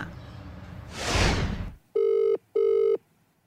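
A telephone rings twice in short, steady electronic bursts with a brief pause between them, after a rushing whoosh of noise at the start.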